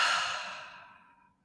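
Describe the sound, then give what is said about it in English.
One long, deep breath out during a guided meditation, a breathy exhale that begins strong and fades smoothly away to silence. “Take another deep breath in through your nose and out through your toes.”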